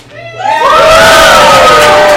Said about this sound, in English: and here's the sound of 50 people who agree with me.